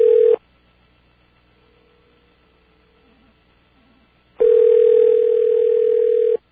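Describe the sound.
Telephone ringback tone from a call waiting to be answered: a steady, single-pitched electronic tone that ends just after the start, then a long silence, then a second tone of about two seconds. No voices.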